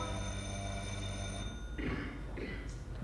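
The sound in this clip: A telephone bell ringing with a steady, bright, continuous ring for about one and a half seconds before it stops, followed by a short, quiet voice.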